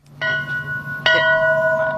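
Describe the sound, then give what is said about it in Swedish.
A ship's bell aboard a moored square-rigged brig is struck twice. Each strike is a bright metallic clang with long ringing overtones; the second is slightly louder and cuts into the first one's decay, over a low steady hum. “P4 Stockholm var med i morse och ringde i klockan för att väcka besättningen”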